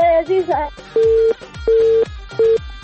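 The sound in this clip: Telephone tones as a call cuts off: a short stretch of wavering voice-like sound, then three loud, steady mid-pitched beeps in an on-off pattern, the last one shorter.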